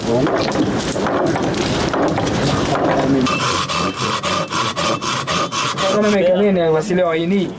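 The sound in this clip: A carpenter works fruit-tree wood, producing harsh rasping and scraping throughout, with a run of regular back-and-forth strokes in the middle.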